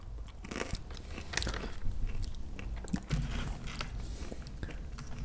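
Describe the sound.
Crunchy chickpea snacks being chewed, with dense, continuous crunching and many small bites and cracks at steady loudness and no talking.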